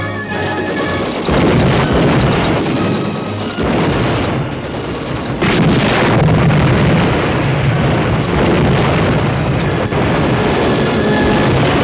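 Booming explosions and gunfire from a 1962 war film battle scene: loud, dense and continuous rumbling throughout, with a sharp burst near the middle and no voices.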